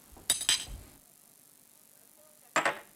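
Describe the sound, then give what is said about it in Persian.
Drinking glasses clink in a toast to a daughter's health. Two quick bright chinks come at the start, then a quiet pause, then one more clink near the end. “باز یک قدهی. این قده را میخوام به سلامتی دخترم نوشیم.”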